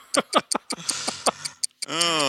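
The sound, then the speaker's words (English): A ticking clock, the doom clock, gives a series of sharp, bright ticks at a quick, slightly uneven pace, followed by a brief sustained tone at the end. “Oh, there's a ticking. What's the ticking? There is a ticking, and it can only be the doom clock.”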